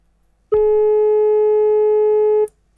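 A telephone line tone after a dropped call: a single loud, steady buzzing tone that starts and stops abruptly and holds for about two seconds.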